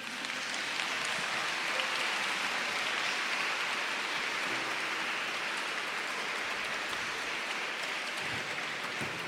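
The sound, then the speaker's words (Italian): Applause from an audience in a church during a choir concert, an even, rain-like patter of many hands that stays fairly faint and unbroken throughout, with no voices. “Un bel applauso, grazie.”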